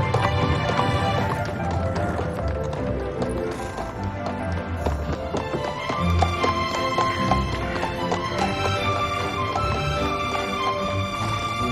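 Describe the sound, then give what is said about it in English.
A horse pulls a carriage along a snowy road toward a mansion entrance, its steady clip-clop of hoof beats running under prominent music. “A horse-drawn carriage rolls down a snowy road to the entrance of a white mansion with an entrance by pillars.”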